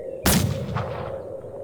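A single gunshot is fired: one loud, sharp crack that bursts out suddenly, then fades through a long, rumbling tail over the next second and more.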